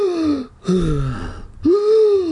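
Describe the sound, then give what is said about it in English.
A voice imitates someone sucking in deep breaths after running: a few heaving, voiced gasps, each drawn out and separated by brief pauses. The gasps are loud and breathless. “Out on the sidewalk, I stopped, lowered my hands to my knees, and sucked in deep breaths of fresh air.”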